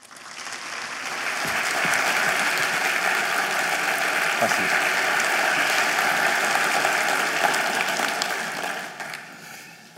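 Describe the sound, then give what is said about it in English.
Audience applause welcoming a guest speaker: dense, steady clapping that swells over the first two seconds, holds at a loud level, then fades in the last second. “It's always a good thing when people applaud before I've said a word.”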